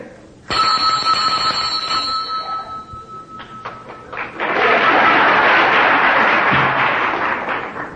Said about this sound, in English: This is how an altar boy properly rings the bell.